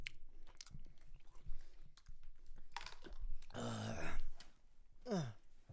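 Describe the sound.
Crunchy chewing of a chip, with irregular crackling bites and wet mouth noises running steadily throughout at a moderate level.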